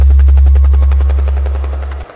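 Helicopter rotor chop: a loud, rapid, steady beating over a heavy low rumble, tapering off slightly before cutting out abruptly near the end.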